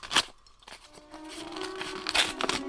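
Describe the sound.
Paper crinkles and rustles as a paper envelope is opened and a small note is taken out, in a radio drama. Sharp crackles come near the start and again near the end, with quieter rustling between.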